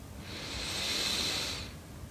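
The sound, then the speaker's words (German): A single deep inhale during meditation, smooth and airy, swelling gently and then fading over about a second and a half, with no talking. “Wir nehmen den ersten tiefen Atemzug und atmen ein”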